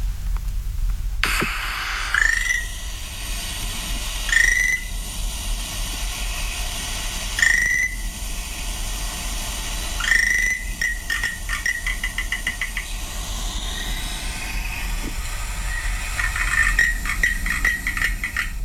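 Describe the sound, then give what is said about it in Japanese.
Frog calls recorded on Amami Oshima ring out as short, bright chirps, about four spaced a few seconds apart, then a quicker run of notes near the end, all over a steady, noisy background hiss. “奄美大島で聞いたカエルの鳴き声、こんな声でした。”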